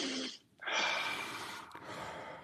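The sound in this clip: Quick, airy breaths drawn into the upper chest during a breathing exercise: a short breath, a brief pause, then a longer, steady breath that continues to the end.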